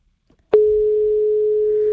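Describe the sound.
A telephone line tone sounds as a call is placed to a caller. A faint tick comes first, then a single steady, mid-pitched tone begins abruptly and holds loud and unbroken to the end.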